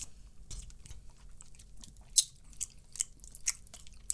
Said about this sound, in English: Let's taste your soup. Taste the soup. A gumbo.